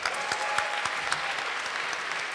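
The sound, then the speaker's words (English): Audience applause for the volunteers at a show: steady, dense clapping at an even level through the whole short stretch, with a few slightly sharper claps standing out. “Let's give them a big round of applause as well.”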